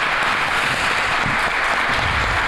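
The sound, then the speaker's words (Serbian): Applause from a live studio audience, dense and steady clapping that holds at an even level through the whole stretch with no voices above it. “To, hvala. Dobili smo aplauz, a ne znaju šta ih još čeka, polako.”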